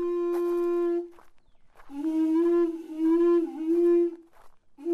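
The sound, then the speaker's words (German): A conch shell trumpet with its tip broken off is blown, giving a loud, steady horn-like tone rich in overtones: a short blast of about a second, then a longer, slightly wavering one, and the start of a third. “This is a conch shell trumpet. Das ist ein Muschelhorn. Die Spitze wurde abgebrochen, damit man einen Ton erzeugen kann.”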